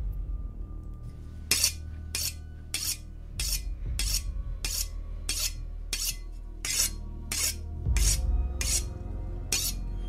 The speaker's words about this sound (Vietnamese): Một tay còn lại nó cầm một con dao, là một con dao bầu to miết vào nhau.